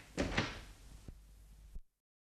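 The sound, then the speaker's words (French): A street door is shut as a staged sound effect: a couple of rattling, scraping bursts, then a dull thud and a final firm knock before sudden silence. “Je veux fermer sur vous la porte de la rue.”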